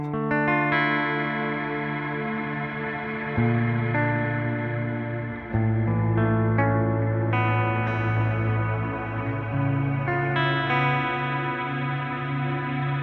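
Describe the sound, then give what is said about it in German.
Shimmer reverb from an effects unit makes sustained, bright, layered chords that ring continuously. The harmony shifts several times, with each new chord swelling into a spacious, glassy wash, and there is no talk. “Also bei vielen Hallgeräten ist das halt sowas ähnliches dann der Schimmer-Effekt, ne? Ja. Der klingt dann so ähnlich.”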